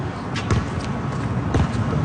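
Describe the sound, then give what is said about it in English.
A basketball shot clangs off the rim at a neighborhood hoop, with a few sharp, hard knocks standing out over steady low background noise. “At least I got rim. I got rim. You hit rim this time.”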